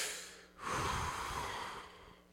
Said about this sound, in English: The deep breath was a detriment.